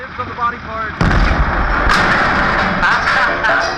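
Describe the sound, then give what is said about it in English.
Heavy gunfire from a very big gun erupts after a brief voice, a sudden loud blast that swells into a sustained, rumbling roar. “Goodness gracious, I reckon I ain't ever seen a gun that big.”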